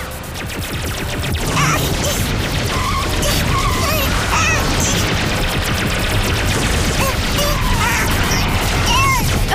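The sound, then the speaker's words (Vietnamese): Cartoon effect of a powerful laser being fired: dense, loud crackling and rattling blasts mixed with zapping chirps, building over the first two seconds and then raging continuously. “Laser sức mạnh khủng khiếp, bắn.”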